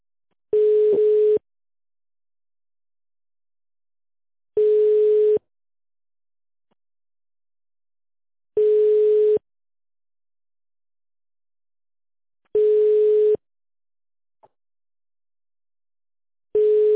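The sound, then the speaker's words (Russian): A telephone ringing tone sounds while a call is placed: five identical mid-pitched steady beeps, each under a second long, separated by regular silent gaps of about three seconds, with the last cut short. “Звонок в Леспромторг.”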